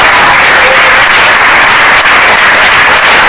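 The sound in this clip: Loud, dense audience applause at a festive premiere of Azerbaijani artists, a steady unbroken wash of many hands clapping from start to finish with no voices standing out.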